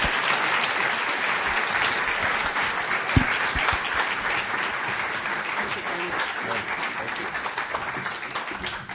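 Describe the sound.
Audience applause welcomes a speaker to the podium, a dense and sustained clapping that holds at a steady level throughout.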